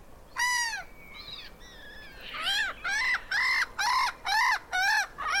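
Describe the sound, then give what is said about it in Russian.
A black-headed gull calls with harsh, downward-slurred cries: one loud cry, a few fainter calls, then a rapid, evenly spaced run of six loud, grating calls. “Вот послушайте, например, как кричит озерная чайка.”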